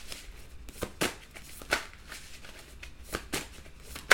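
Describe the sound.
Tarot cards are shuffled and drawn by hand, making a series of short, crisp slaps and papery rustles at uneven intervals, fairly quiet against a near-silent background.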